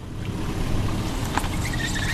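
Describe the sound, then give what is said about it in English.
A car's low engine rumble is heard as it pulls into the lot of the Village Bottle Shop liquor store on Sagamore Parkway in West Lafayette, Indiana, steady and moderately loud throughout. “At 11:52 a.m., the first car pulls into the Village Bottle Shop on Sagamore Parkway in West Lafayette.”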